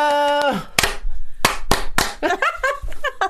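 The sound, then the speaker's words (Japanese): Rhythmic hand clapping in the pattern from the Japanese TV show Waratte Iitomo: a few sharp, crisp claps in a set pattern follow a sustained tone, then voices mix in. “今こそ、今こそ、いいともの拍手が、このコロナ禍にぴったり。”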